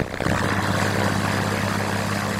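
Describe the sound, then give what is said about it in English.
Steady droning engine hum of a single-engine Cessna airplane flying overhead, a propeller plane used for mapping chemical plumes; the loud, even drone holds throughout without breaks or voices. “It's a plane, a single-engine Cessna that can map chemical plumes from above in real time.”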